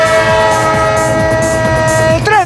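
Train horn sounds in a sports radio jingle, a loud sustained chord over rumbling rail clatter, ending in a quick warbling pitch bend.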